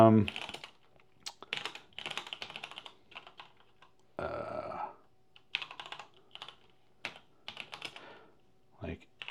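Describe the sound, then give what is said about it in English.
Typing on a computer keyboard: many quick, light key clicks in uneven bursts with short pauses, fairly quiet throughout. “Get my typing right here.”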